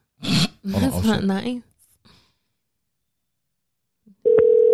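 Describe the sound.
A phone call ringing out: after brief speech and a quiet pause, a loud, steady electronic ringback tone starts near the end and holds unbroken.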